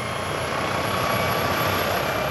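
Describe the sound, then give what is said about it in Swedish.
Steady helicopter rotor and engine roar as the aircraft climbs toward the clouds on a mountain rescue flight. It is a continuous, loud, even drone with no talk. “Helikoptern flyger upp mot molnen”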